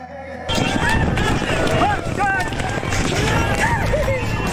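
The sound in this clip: Horses gallop across the Zoige grassland in midsummer, a dense, continuous drumming of many hooves blended with gusty wind noise, starting abruptly and staying loud and rough throughout.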